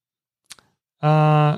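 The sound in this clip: A computer mouse gives a quick double click, two brief faint snaps close together, followed after a short silence by a louder, steady buzzing tone that holds for about half a second.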